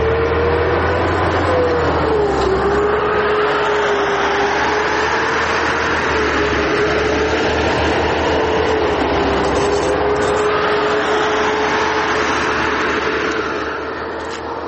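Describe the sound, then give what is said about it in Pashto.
Armoured vehicles and trucks move in a convoy toward the centre of Marja, a steady engine roar with a low rumble and a droning tone that holds throughout, easing slightly at the very end. “د زغروالو او بارسو موټرو کاروان د مارجه د مرکز په لوري ولاړی”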